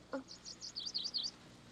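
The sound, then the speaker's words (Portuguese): A small blue bird chirping: a quick series of high, thin tweets, a few short notes followed by a faster warbling run, faint and heard alone. “Adeus, amiguinho. Aquele lindo passarinho azul deixou uma linda titica na sua mão.”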